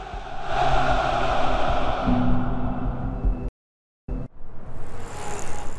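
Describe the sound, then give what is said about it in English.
Steady, heavy rumble of armored military vehicles driving slowly in a parade. The loud, continuous roar breaks off briefly in a silent gap, then resumes. “Then armored vehicles driving slowly through the parade and past a grim-faced Putin.”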